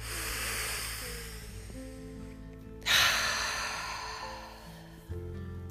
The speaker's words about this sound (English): Take one more deep breath in.